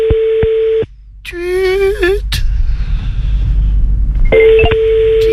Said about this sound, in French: Oh, une petite notification. Non, c'est quand tu coupes le micro, ça.